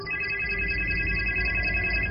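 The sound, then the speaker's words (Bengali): A mobile phone ringtone plays as steady, bright electronic tones that hold continuously at an even loudness, with no talk over them. “হঠাৎ ম্যাথিউর ফোনে সম্বিত ফিরল, প্রায় এসে পড়েছে।”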